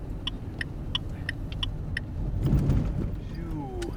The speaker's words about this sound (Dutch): We rijden maar gewoon naar Duitsland.